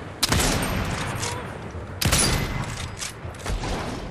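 Video game gunfire as players shoot down a loot drop: a sharp burst of shots at the start and another about halfway through, each trailing into dense, rattling noise.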